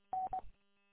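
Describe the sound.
A telephone number being dialed with touch-tone keys: two short steady beeps in quick succession, faint and alone.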